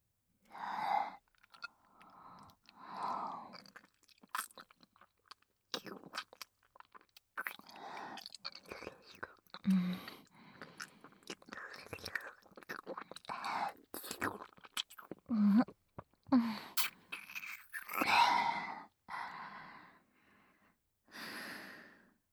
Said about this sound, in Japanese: 尋問前に対象と唾液交換を済ませるのは当たり前でしょ。ほら、口を開けてください。